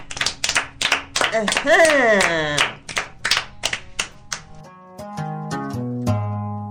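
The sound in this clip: Audience clapping during a Kinyarwanda storytelling session: many sharp, rhythmic claps with voices chanting along, giving way to sustained tones toward the end.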